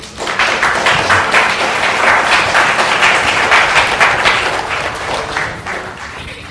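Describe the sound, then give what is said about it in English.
An audience applauds musicians brought in from Santa Clara County, with dense, steady clapping that holds for several seconds and eases slightly toward the end. “let's welcome our musicians. You can give them a hand.”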